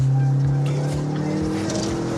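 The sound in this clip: A modified, non-stock car engine charging at about 4000 rpm gives a loud, steady drone with a strong low tone that holds unbroken throughout.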